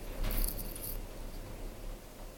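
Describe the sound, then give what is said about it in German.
An apartment door rattling in its frame as storm wind pushes into the flat, giving a brief burst of quick, light metallic clatter in the first second over a steady wash of wind noise. “Die Balkontür ist auf Kipp. Die Wohnungstür klötert in der Zarge. Es drückt hier voll rein, ne?”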